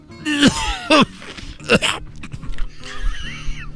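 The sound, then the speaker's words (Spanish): Hoarse coughing: a few harsh, voiced bursts with a raspy throat sound, separated by short pauses, then a rougher, breathy rasp near the end. “Estás tosiendo como el brujo mayor, querido hermano.”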